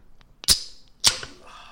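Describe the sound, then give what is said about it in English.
A cold drink can being cracked open: two sharp metallic snaps about half a second apart, followed by a brief fizzy hiss. “Cracking open a cold one, because this is our 100th episode.”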